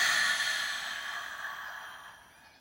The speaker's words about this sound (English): let's take a really long, slow, deep breath in through our nose and out our mouth. So breathe in. And release.